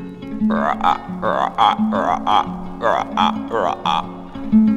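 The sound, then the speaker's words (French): A human voice imitates frogs croaking, producing a steady series of many short, throaty, rhythmic croaks separated by brief pauses. “petit garçon s'assoit sur un tronc d'arbre et il écoute les grenouilles. D'abord, elles ne parlent que le langage des grenouilles, quoi.”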